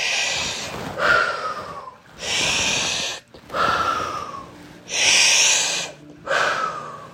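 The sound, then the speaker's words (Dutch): Breathing in through the nose during a guided breathing exercise: several slow, airy, snorting breaths alternate with short quiet gaps in a steady rhythm. “Adem dan twee keer in via je neus. En uit.”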